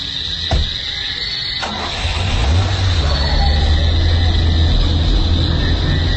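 A car engine runs as the car is turned around on a road, a low steady hum that grows louder after about two seconds. A couple of brief clicks come through earlier.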